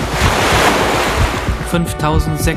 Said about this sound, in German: Das Meeresrauschen setzt ein.